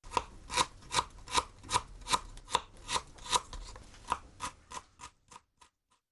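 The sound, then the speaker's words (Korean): Knife finely chopping peeled ginger: a steady, even rhythm of many crisp cuts that grow softer and sparser toward the end, with no talk. “먼저 생강 껍질을 벗겨 잘게 씁니다.”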